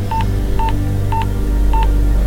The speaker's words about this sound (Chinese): 双手颤抖地拿起电话，连忙打给麦克。